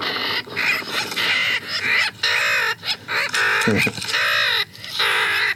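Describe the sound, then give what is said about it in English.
Adult sooty terns calling in a seabird rookery on the Houtman Abrolhos islands: loud, harsh, nasal calls overlapping in many quick bursts, with only brief gaps between them. “So that's a sooty tern. That's a sooty tern adult. Yes, calling.”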